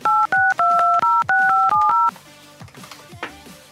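Telephone keypad tones dialing a number: a quick run of loud, clean beeps in two-tone pairs, some held longer than others, then quieter background noise with faint clicks.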